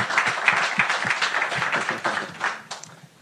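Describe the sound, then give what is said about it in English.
An audience applauds a contest winner with a dense burst of many hand claps that gradually thins and fades toward the end. “Congratulations. Thanks, guys. Give him a hand, yeah.”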